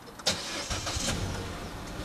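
A car engine starts during a roadside fuel-breakdown call, opening with a quick click of the starter and then a steady, low-to-mid engine hum.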